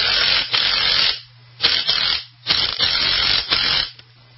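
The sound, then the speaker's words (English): Long screws being power-driven to mount an open sign: several loud, buzzing whirs that start and stop in short bursts with brief quiet gaps between them, heard alone without talk. “Takes big, long leg screws to screw that open sign up.”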